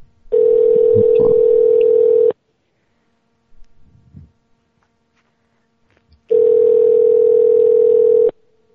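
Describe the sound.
A telephone ringback tone rings unanswered: two long, steady tones of about two seconds each, separated by a roughly four-second gap that holds only a brief, faint rustle.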